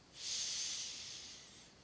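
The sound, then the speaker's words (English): A single deep breath taken before a spoken invocation at a spiritual gathering: a soft, airy hiss that swells quickly, holds, then slowly tapers away, faint and alone. “Take a deep breath.”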